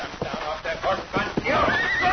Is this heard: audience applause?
no